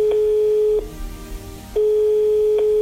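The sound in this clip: A telephone line tone on an outgoing call: a steady, mid-pitched beep holds, breaks off for about a second, then returns at the same pitch and level.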